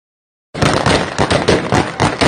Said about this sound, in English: And of course, you can hear the gunshots, so things are going beautifully right outside the airport.